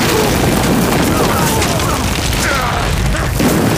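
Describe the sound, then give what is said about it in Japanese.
Artillery shells explode in a battle, producing a dense, continuous wall of loud booming and rumbling with no clear break between blasts. “砲兵に命令を伝えろ。敵を全て爆破させろ。”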